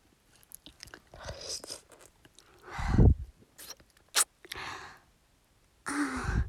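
Wet licking and mouth sounds in an intimate roleplay: several soft, moist smacking and slurping bursts with pauses between them, one fuller and louder around the middle, and breathy sounds throughout.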